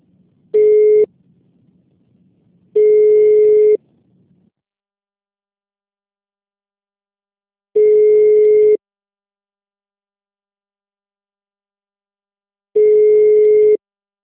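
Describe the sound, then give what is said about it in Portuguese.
Telephone tone after a call could not be completed on a free call line: four steady mid-pitched beeps separated by long silences, the first beep shorter than the rest, with a faint low hum at the start. “Não foi possível completar sua chamada. Ligação gratuita. Não foi possível completar sua chamada.”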